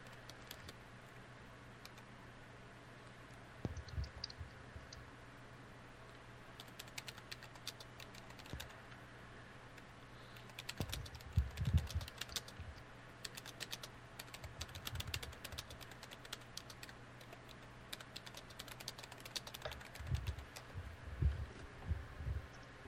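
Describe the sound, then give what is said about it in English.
Typing on a computer keyboard: faint, irregular bursts of light key clicks, with short pauses between flurries, and no talk. “I can type.”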